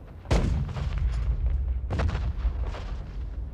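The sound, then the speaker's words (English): Artillery barrage from a First World War battle fires at dawn: two heavy, deep booms stand out, each trailing into a sustained rumble, and lighter thuds and bursts fill the space between them. No voices. “The barrage began at 5:20 a.m., September 27th.”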